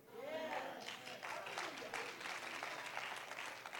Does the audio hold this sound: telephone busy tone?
no

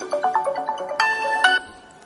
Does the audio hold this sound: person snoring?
no

